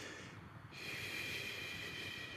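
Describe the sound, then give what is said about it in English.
A forceful breath pushed out through the mouth, a single long, airy rush that swells after a short, quieter start and holds steady to the end, soft overall with no talk. “Almost everybody, when I say breathe proactively out of the mouth, it's going to sound something like this.”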